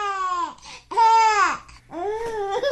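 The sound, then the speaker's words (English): A baby laughing in three drawn-out, squealing bursts, each a bright voiced cry that bends in pitch, separated by brief gaps. “This is the sound of a baby laughing.”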